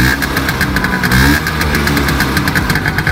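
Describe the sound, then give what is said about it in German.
An old Vespa scooter engine runs with a loud, steady, rapid putter and a buzzing, knocking vibration, heard alone. “Ja, das war natürlich eine Vespa, eine alte Vespa.”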